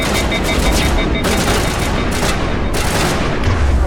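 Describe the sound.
Gunfire from the video game Mass Effect, in a fight against Geth and Krogan enemies: a dense, unbroken barrage of loud shots and blasts that stays at full intensity throughout.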